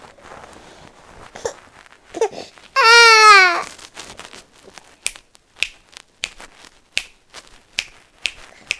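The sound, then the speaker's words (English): A baby crying while fussing with a sore ear: one loud, wavering wail about a second long, among many sharp clicks and taps before and after it. “You have to cry so much, sweetie.”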